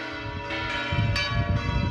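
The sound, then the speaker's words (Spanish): Church bells ring out on a saint's feast day in a rural community, a full, sustained peal of overlapping metallic tones that stays loud and steady throughout, with no talk. “Mirad cómo tocan las campanas en el día de San Isidro.”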